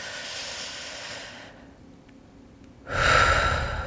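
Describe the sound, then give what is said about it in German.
A deep breath is drawn into the belly during a guided relaxation for falling asleep. A soft steady hiss comes first, then a near-silent pause, then a loud airy inhalation that fills the last second. “versuch doch einfach mal ganz tief einzuatmen, schön in den Bauch.”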